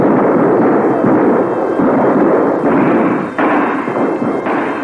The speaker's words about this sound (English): Battery in position, sir. Commence firing on the hour. Yes, sir. 10, 5, 0. Commence firing. Fire!